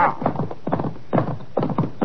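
Horses gallop off as riders set out, their hoofbeats pounding in quick rhythmic clusters that repeat several times at a moderate level.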